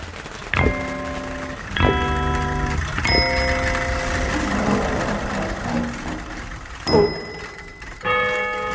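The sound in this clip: A bicycle bell rings as a bicycle arrives. Five bright, ringing chimes sound at uneven intervals, each fading slowly, over a faint steady background.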